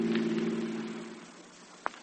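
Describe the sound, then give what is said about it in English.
A car engine runs while driving, giving a faint, low, steady hum that gradually fades. One brief click sounds near the end. “I don't believe in crowding the driver while the car is in motion.”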